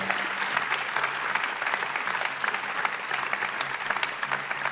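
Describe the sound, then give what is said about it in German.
Audience applause after a morning message: dense, steady clapping from many hands that holds at an even level throughout, with no voices standing out. “Applaus nochmal für den Geri.”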